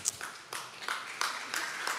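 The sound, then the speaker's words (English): A lone audience member clapping during a Sunday church sermon: six faint, sharp claps at a steady, even pace. “if you're going to clap, go. One person really liked it.”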